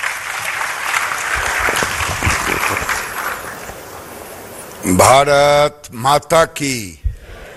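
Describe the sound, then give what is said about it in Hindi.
Loud crowd applause welcomes India's Textiles Minister at a National Handloom Day event. The dense clapping runs for several seconds, then stops and a man's voice takes over with a few loud spoken phrases. “जोरदार तालियों से स्वागत कीजिए।”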